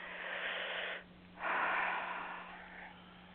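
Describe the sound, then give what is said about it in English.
A deep breath in is taken during a guided relaxation exercise. A long, airy, breathy rush is followed by a short pause and then a second, longer breath sound that slowly fades, with no speech. “Take a nice breath in.”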